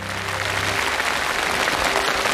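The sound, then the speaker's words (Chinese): Audience applause greets a live demonstration of offline simultaneous translation, a steady wash of many hands clapping that holds at an even level throughout, with a voice audible briefly at the start. “哎，不错啊，掌声鼓励一下，很快啊。”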